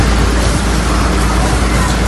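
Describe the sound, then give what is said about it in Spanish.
Roaring of a wildfire burning in Ávila province, where flare-ups were recorded near Piedralaves, Navaluenga and La Adrada. It is a dense, steady rushing noise with no distinct separate events, loud throughout. “Es el sonido de un fuego que puede tener un origen intencionado en los tres rebrotes registrados en los términos de Piedralaves, Navaluenga y La Adrada en Ávila”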